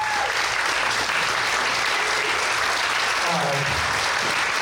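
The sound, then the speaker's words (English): Audience applause at a church service welcoming a speaker onstage: dense, continuous clapping that stays loud and even from start to finish. “So give it up for Peter DeSantis. Stand on your feet. Welcome him.”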